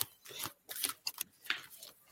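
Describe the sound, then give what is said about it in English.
Playing cards are pulled out and handled, making faint, papery rustles and quick snaps in a series of short, uneven bursts, with no talk. “I'm glad I pulled these cards out. They're so beautiful.”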